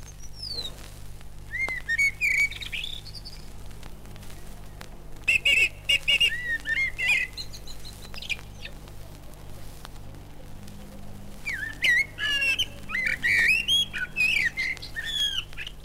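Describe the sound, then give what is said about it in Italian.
A prize-winning thrush and blackbird sing on a bird-catcher's rooftop loggia in Udine, Friuli, giving bright whistled, warbling phrases in a few bouts separated by quieter gaps, over a steady low hum. “nel loro colloquio nell'aerea altana di un uccellatore udinese, questo tordo e questo merlo, entrambi maestri più volte premiati”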